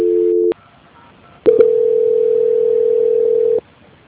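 Telephone tones sound while a call is placed to a mobile phone: a short steady tone, a near-silent pause, a few clicks, then a long, even, loud tone held for about two seconds that cuts off abruptly. No voices.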